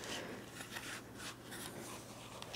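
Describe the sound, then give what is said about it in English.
Playing cards handled close up for ASMR, giving a steady soft rustling and scraping with small crisp flicks throughout, with no voice. “I brought some cards because last time I used them in a video, I was like, wow, this is really tingly.”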